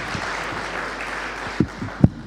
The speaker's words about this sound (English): Oh, give him a clap. That is brilliant.